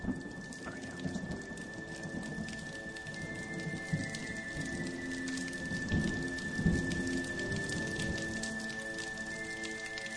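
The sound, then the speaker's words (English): Rain falls steadily with thunder in a sound effect, a constant hiss of drops on surfaces under deep rolling rumbles that swell through the middle and latter part. A thin, steady high tone runs throughout. “when you put the music on, do the rain this time again. I like the rain.”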